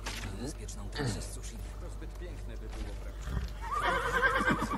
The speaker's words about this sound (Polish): Słuchajcie, zobaczymy, czy mój koń będzie zazdrosny. Bo mój koń jest tutaj, nie? Co ty na to, że ja przyszedłem z innym koniem?